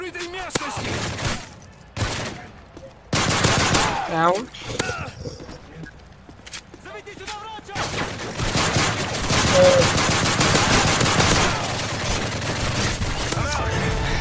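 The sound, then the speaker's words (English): Video game gunfire rattles in loud rapid bursts, some stretches dense like machine-gun fire, separated by brief lulls. People talk over and between the shots. “I just shot that guy in the crotch.”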